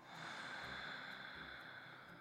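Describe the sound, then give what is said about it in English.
A single full, deep inhale through the nose at the start of a breathing exercise: a soft, steady airy hiss that holds for about two seconds, quiet and with no talk. “let's go ahead and just take a full inhale in through the nose.”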